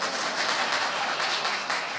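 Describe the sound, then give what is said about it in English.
Audience applause at a parish community service, a dense, even wash of many hands clapping that holds steady in loudness without pauses. “Do you know, we should speak in a foreign language more often if you get an applause.”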